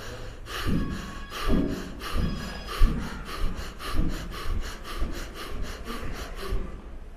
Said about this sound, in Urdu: تو اس کا طریقہ یہ ہے کہ سانس کے ساتھ لفظ اللہ کھینچ کے اوپر کی طرف دل پہ اسرا لگانا.